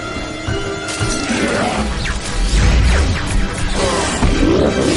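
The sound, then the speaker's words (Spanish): Glass shatters as a beast falls through a pane in a science-fiction action scene, a loud smashing burst inside a dense, continuous mix of heavy rumble and whooshing sounds. “Otra bestia lo empuja y destrozan un cristal al caer.”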